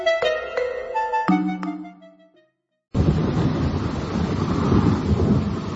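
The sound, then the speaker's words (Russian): A heavy rain downpour, with thunder, strikes a river in a forest: a steady, dense, loud roar of rain follows a few ringing musical tones that fade into a brief silence. “Начался сильный ливень. Двигаться по реке в такую погоду было опасно.”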